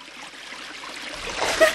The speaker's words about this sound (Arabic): اضطر بطبوط إلى الهرب إلى النهر لكي يلقي نفسه فيه. ولما سقط بطبوط في النهر أخذ يصرخ ويصرخ